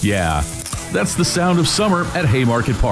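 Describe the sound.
Food sizzling at the ballpark concessions of Haymarket Park, a steady frying hiss running beneath continuous speech.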